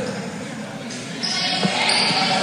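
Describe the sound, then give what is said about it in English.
A basketball is dribbled on a court at the free-throw line during a game, a few dull bounces against steady crowd noise. “One more for Bella Burke. Dribbles the basketball. Lets it fly”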